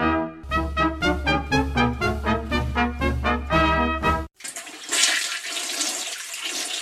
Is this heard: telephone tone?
no